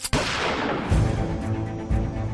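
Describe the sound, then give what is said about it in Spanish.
A single rifle shot fired at a hotel balcony in Memphis, opening with a sharp, loud crack that gives way to a sustained, rumbling roll. “El disparo procedía del rifle de James Earl Ray, un preso de raza blanca que se había fugado de la cárcel.”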